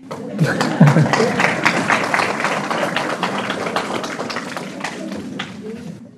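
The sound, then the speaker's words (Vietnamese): An audience claps hands at a teacher's talk, a crowd of many quick, sharp claps rolling on for about six seconds and slowly thinning, with a few voices heard briefly near the start. “Bây giờ mình nên vỗ tay nè.”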